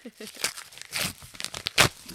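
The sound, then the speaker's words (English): A padded bubble envelope is torn open and rummaged through, giving several short, crackly bursts of tearing and crinkling plastic with uneven gaps. The sharpest rip comes near the end. “It's a bubble envelope, in case anyone's wondering.”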